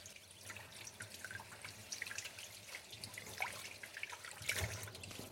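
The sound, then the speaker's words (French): Running tap water as a bunch of basil is rinsed in a sink while pesto is prepared: a steady, fairly quiet stream with irregular splashes and drips throughout. “Je le sors de l'eau, je le rince bien”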